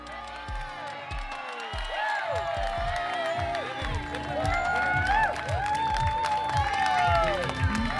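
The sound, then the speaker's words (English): Groups of locals cheer and whoop for cyclists on cobbled climbs such as the Quaremont and Paterberg. Many voices shout over one another in a continuous din, with steady, rhythmic low thumps underneath. “So we've just been out on the start parkour, checking out some of the cobbled climbs that the riders have been heading up, including the Quaremont and Paterberg. And there have been a few groups of locals out to cheer on riders,”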